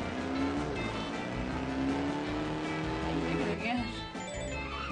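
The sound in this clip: Car engine in an arcade-style racing video game with automatic acceleration and braking: a sustained, loud motor drone with a whining harmonic tone that holds steady, then dips and shifts near the end.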